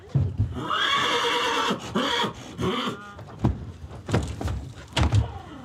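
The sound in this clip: A purebred Hanoverian stallion gives a loud, shrill whinny with a wavering, harmonic tone. A few sharp knocks and thuds follow in the second half.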